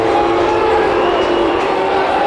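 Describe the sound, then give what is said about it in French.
A crowd booing at a baseball game after a batter is hit by a pitch: a loud, steady, low drone of many voices that holds without a break. “Et il vient d'être atteint par Alvarez sur les huées de la foule, comme vous l'entendez.”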